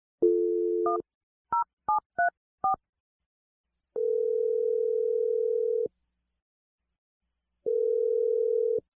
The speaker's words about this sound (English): I'm going to dial her number right now. Here we go.